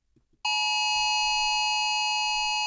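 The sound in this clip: A phone's emergency alert alarm, an Amber Alert tone, bursts in abruptly after a moment of near silence. It holds as a loud, piercing, steady tone rich in overtones and never breaks.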